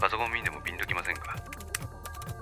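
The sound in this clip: Computer keyboard typing: a few sharp, quick key clicks come through under steady talking, growing more distinct toward the end as the voice carries on.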